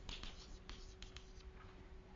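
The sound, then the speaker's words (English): Drawing on a board makes faint scratchy strokes, a few short marks scraped in quick succession over a low, steady hum. “So let's now draw the boundary of ADS over here.”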